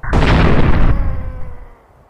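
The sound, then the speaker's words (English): An explosion blast erupts loudly across the full range, holding for nearly a second before fading into a rumbling decay over the next second. “Well, shit. I can't believe he survived that first blast. He won't survive the second.”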